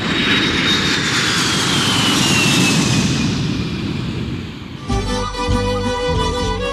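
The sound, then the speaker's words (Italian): An airplane taking off with a loud, steady engine roar and a high whine that slowly falls in pitch. After about five seconds, music abruptly replaces it. “Per prima cosa allacciamo le cinture di sicurezza e decolliamo con lui per il Perù.”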